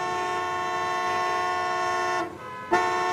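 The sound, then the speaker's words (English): A car horn honks in stalled traffic: one loud, steady, sustained blare, briefly cut off near the end and then sounding again. “I'm gonna try and stop this woman from honking her horn and get this traffic moving.”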